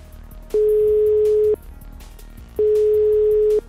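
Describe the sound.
A telephone line gives a ringback tone while a call is placed: two steady, mid-pitched tones, each lasting about a second, separated by a pause of similar length.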